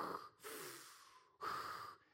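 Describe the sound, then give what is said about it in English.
A voice imitates loud, rasping breathing, like breath heard through a respirator, to show how breath sounds with open eustachian tubes. A few long, harsh, hissing breaths come in and out, loud and close. “Your breath is so loud, like Darth Vader, like...”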